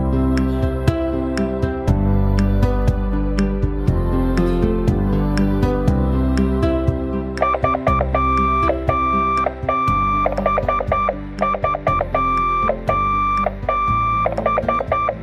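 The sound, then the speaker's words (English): Telegraph Morse code beeping and clicking: rapid strings of short and long mid-pitched beeps with clicks, running steadily over a dense, layered tonal background, with no talking. “It probably sounds like a lot of random beeping and clicking. But to a telegraph operator, those dits and dahs sound like letters and numbers strung together into messages.”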